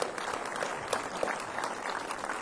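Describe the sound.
A church audience claps to welcome new believers after a prayer, a brisk, continuous round of applause with a few sharper claps standing out from the steady mass.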